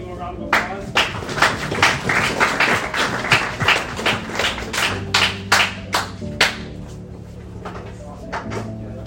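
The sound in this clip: Scattered audience applause after a Bible reading at a church service: uneven, sharp claps sounding as distinct bursts that cluster together, then thin out toward the end, with low tonal sound lying beneath them.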